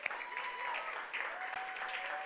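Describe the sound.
Audience applause for a speaker at a church gathering: a steady, even wash of many hands clapping together at moderate level, sustained throughout without a break.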